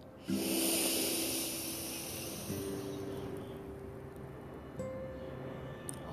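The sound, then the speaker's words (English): A slow, deep breath is drawn in, soft and airy, over faint sustained musical tones that shift pitch a few times, with no talk. “Take a deep breath in.”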